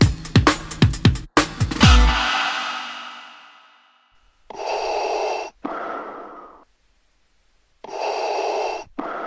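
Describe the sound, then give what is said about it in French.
Breathing from a person close behind someone testing a video game: a quick run of sharp snorting gasps opens, then after a pause three long, loud, noisy breaths come alone. “si tu respires derrière moi, je vais pas vraiment entendre. Alors, si tu pouvais couper ta respiration 5-10 minutes, ça m'arrangerait”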